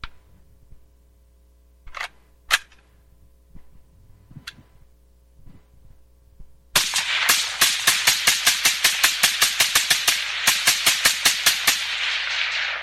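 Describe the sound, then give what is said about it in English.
A semi-automatic rifle fitted with a suppressor fires a long, fast string of many sharp, cracking shots in an even rhythm, each with a short hissing tail. A few faint clicks come before the firing starts. “I also happen to have here a semi-automatic rifle with a suppressor on it. And I'm going to demonstrate that this isn't silent.”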